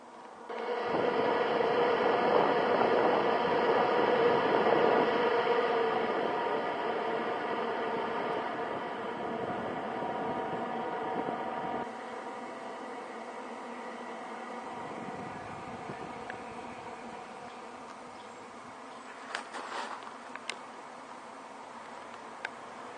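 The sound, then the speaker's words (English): An electric fan with three speeds runs on its low setting, giving a steady buzzing motor hum over airy noise. The level drops partway through, and a few faint clicks come near the end. “It's got the nice strong airflow. You can see the fans cranking away. Again, it's got the three speeds here, so got a little switch under here. We can turn it up. That's on low,”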